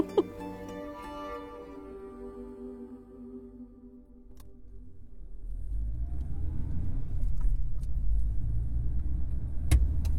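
A car drives on a ring road at night with a low, steady engine and road rumble. The rumble grows louder through the second half and holds at a constant drone.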